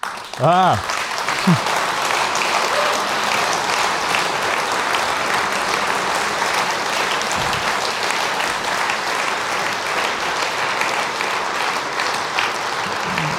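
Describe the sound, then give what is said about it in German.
Loud, dense audience applause at a German-language speech event, given in thanks to the organizer. The clapping is steady and sustained for the whole stretch, with no break or fade. “diesen Applaus hat sich Max Otte wahrlich verdient.”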